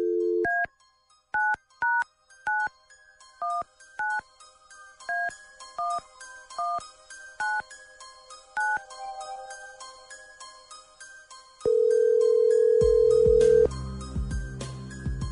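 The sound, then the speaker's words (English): A telephone number is dialed in a quick string of many touch-tone beeps. A single long, steady ringback tone on the line follows. “Dialing at random.”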